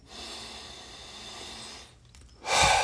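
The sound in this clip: Air is breathed out during a relaxation breathing exercise as a long, steady, airy hiss that fades, followed after a short gap by a stronger, louder breath of air.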